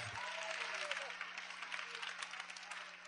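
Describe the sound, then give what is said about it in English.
An audience claps hands during a celebratory church service, a dense, steady patter of many hands that runs evenly through the whole stretch and stays fairly faint, with voices audible within it. “Let the celebration begin. Clap your hands unto the”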